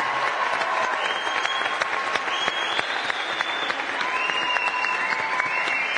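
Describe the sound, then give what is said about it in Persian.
An audience at a judged competition show breaks into sustained, dense applause, many hands clapping steadily and loudly for the full six seconds without a break. “دست بزنیم برام.”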